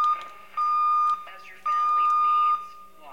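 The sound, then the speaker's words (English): A radio receiver's deviation alarm sounds while the signal drifts off tune: a steady, fairly high electronic tone in three beeps, the first cut short, over a noisy background with voices underneath. “There's that deviation alarm again.”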